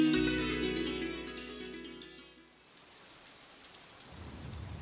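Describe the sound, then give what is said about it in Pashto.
Heavy rain sets in as a steady, broad hiss that swells slightly while a sustained tonal sound fades away at the start. “باران ډېر زیات شو.”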